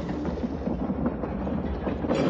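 A moving train rolls along with a steady, continuous rumble and rattle of its wagons, holding an even loudness throughout.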